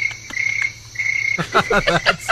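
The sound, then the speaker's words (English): Crickets chirping as a sound effect: a high, steady trill runs for over a second, then gives way to louder, choppier sounds. “Crickets. That's a long one. That is a long one. Very peaceful. I just feel so calm now. It goes on forever.”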